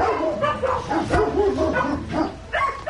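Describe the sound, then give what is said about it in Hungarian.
A large dog barks repeatedly, mixed with yips and whimpers, over a noisy background. “Jövök Lajos Bence után, ide jöttünk egy nagyobb termetű kutyuskához”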